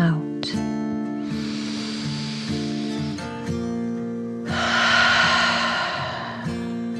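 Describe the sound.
Slow, deep breathing during a children's nap-time relaxation exercise: two long, airy breaths rise and fade over soft, sustained background music.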